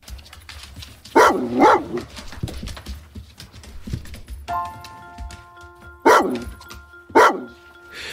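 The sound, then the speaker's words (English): A Labrador cross dog gives four sharp barks: two close together early on, then two more spaced apart later, with quieter shuffling sounds between them. “Timmy was David's editor, but he was also the family dog. The fifth member of the Astell O'Shaughnessy family was a lab cross with an insatiable appetite and partial to making a bit of noise.”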